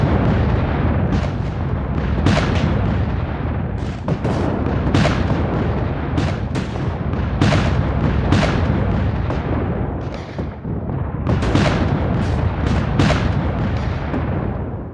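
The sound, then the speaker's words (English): Massed artillery fire from about 300 cannons in a Union gun duel: a continuous loud roar of overlapping booms with many sharper blasts punching through, and no pauses. “With roughly analogous force, Union artillery opens fire. The 300 guns firing at each other make such a noise for the next 2 hours, it's heard 200 miles away in Pittsburgh.”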